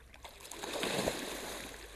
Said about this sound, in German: Rühren mit Paddel, was ist das im See?